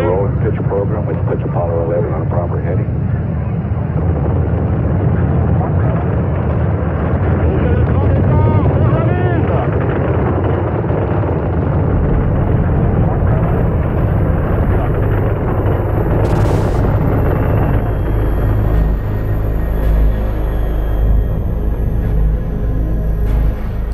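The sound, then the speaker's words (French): Deep, continuous roar of the Apollo 11 rocket's first-stage engines at lift-off, delivering 35,000 tonnes of thrust, rumbling steadily beneath a man talking and growing heavier in the low end during the second half. “Lift-off on Apollo 11. Merveilleux départ, dans des conditions formidables. Les bruits commencent à nous parvenir maintenant.”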